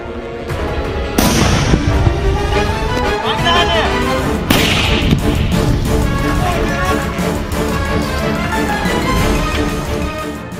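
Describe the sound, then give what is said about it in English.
Artillery and mortar fire striking Ukrainian infantry positions: a dense, loud, continuous roar of blasts and gunfire, punctuated by a couple of sharp, heavy impacts. “The frame captures the moment of the sudden arrival of artillery and mortars to the Ukrainian infantry.”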